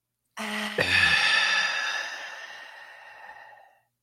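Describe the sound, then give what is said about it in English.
A deep cleansing breath, heard mainly as one long, audible sighing exhale that starts loud and trails away slowly over a few seconds, alone without talk. “We take a deep breath, blow out all the negative, and we're going to fill up with some goodness.”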